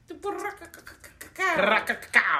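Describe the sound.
A voice imitates fast computer typing, producing a quick run of clicky, tapping mouth sounds in an uneven rhythm that grows busier and louder toward the end of the short burst.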